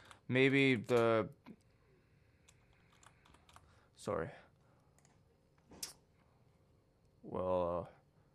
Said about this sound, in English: Just typing them in right now.